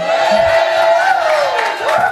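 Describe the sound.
A studio audience cheering loudly, a dense roar of shouting voices with high whoops that rise and fall in pitch throughout.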